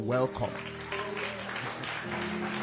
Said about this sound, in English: With Jesus' joy in our hearts and with a clap,